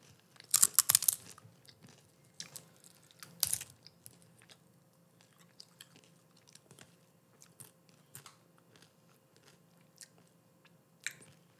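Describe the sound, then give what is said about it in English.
Chewing on a bite of a random pantry food combination with Chick-fil-A sauce. A few crunchy bites come early, then soft, faint mastication sounds continue quietly. “I'm not able to eat that all, but let me just get a bite.”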